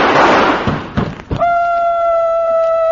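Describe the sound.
A gunshot sound effect in a radio comedy: a loud, noisy blast opens and decays, a few dull thuds follow, and then a steady sustained tone rings on.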